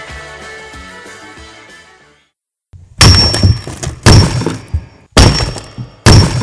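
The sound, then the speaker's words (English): Rock cracks in four heavy, loud splitting impacts spaced about a second apart, each ringing briefly. They follow a short passage of music and a brief silence. “Ah, the sound of rock cracking.”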